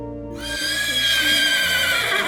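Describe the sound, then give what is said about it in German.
A horse pulling a wedding carriage neighs loudly in one drawn-out, quavering whinny with bright harmonics that holds to the end. “Jetzt geht es mit der Pferdekutsche ins Hotel.”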